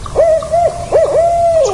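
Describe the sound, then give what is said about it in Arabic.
An old owl hooting in a forest, a few steady mid-pitched hoots, the last one drawn out, loud and clear with no talk. “فجأة ظهر الحكيم بوم، وهو بومة عجوز حكيمة تعيش في الغابة.”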